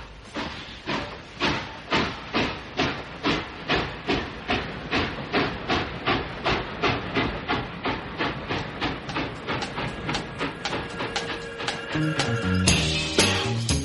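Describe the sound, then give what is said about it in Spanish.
A steam train chuffs in a steady, rhythmic stream of many evenly spaced puffs over a constant hiss, then ends in a louder, denser burst of steam. “un tren, claro”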